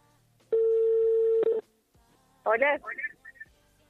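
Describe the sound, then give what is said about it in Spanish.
An outgoing telephone call gives a single steady ringback tone lasting about a second. After a short silence, a voice answers. “A ver, ahí estamos llamando.”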